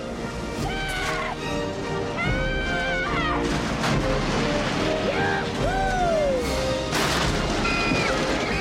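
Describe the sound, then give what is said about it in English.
Crashing and smashing as a car bursts through main doors and into a lab, sending a tray of syringes flying: several loud impact bursts, with high whining tones between them over a constant noisy roar. “They crash through the main doors and speed towards the lab. The car crashes into the lab and the tray of syringes are sent flying”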